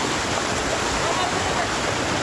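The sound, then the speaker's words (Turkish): Heavy rain and floodwater on flooded roads, a dense, constant rushing roar that fills the whole stretch without a break. “Yollar göle döndü. Kimi yerlerde su baskınları vardı. İşte yurttan yağış manzaraları.”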